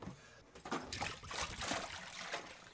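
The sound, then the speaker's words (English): Water splashes and trickles steadily as sanitizer is rinsed out of a homebrewing sterilizer bucket, a continuous rushing pour lasting about two seconds with no voices. “So we are gonna rinse that sanitizer out of the sterilizer bucket. Give it a dump that and we're gonna rinse it.”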